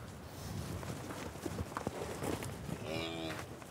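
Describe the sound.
Cattle on a farm as a bull arrives among suckler cows: a steady rustling, shuffling backdrop with a brief harmonic low call near the end.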